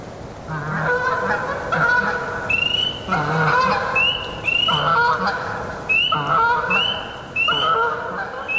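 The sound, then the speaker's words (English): Canada geese honk as they fly by in several loud, overlapping bursts of nasal calls. A peeper frog about a mile away repeats thin, high, whistled peeps in the background from partway through. “And I set up the microphone. And these Canadian geese flew by. And they're, you know, calling out. And that sound inspired the peeper to start. So this is that recording.”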